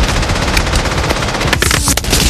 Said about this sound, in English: Gunners from a sandbag nest on a nearby ridge fire at them.